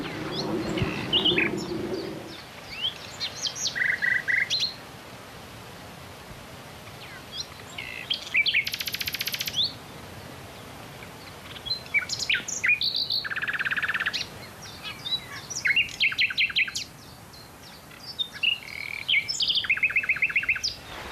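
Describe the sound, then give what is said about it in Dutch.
Nightingale song, loud and varied: phrases of rapid trills, sharp chirps and clear whistles come one after another with short pauses between them, over a faint steady background hiss. “toen in Wageningen nog een paar nachtegalen zaten. Dus die nachtegaal hebben me weer aangezet als het gaat om apparatuur te kopen, om opnames te maken.”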